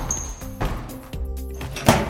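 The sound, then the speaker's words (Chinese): A locker door at school is opened with a few short clunks and rattles, followed by a sharper knock near the end. “他打开自己的储物柜。”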